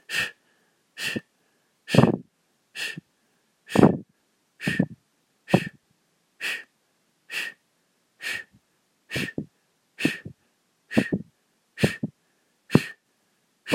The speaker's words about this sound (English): The goal is to blow out very strong and pull your stomach in and out. Concentrate on the exhale.